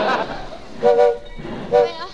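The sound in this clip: A train's whistle gives two short, tonal blasts, roughly a second apart, over a low rumble as the train arrives at a station.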